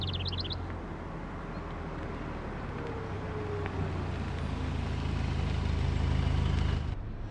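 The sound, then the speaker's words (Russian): A car's engine rumbles low and steady as it drives along a highway and pulls onto the roadside, growing slightly louder before cutting off abruptly near the end, with a brief high chirping at the start. “Марина с Юрой едут по шоссе. Они съезжают на обочину.”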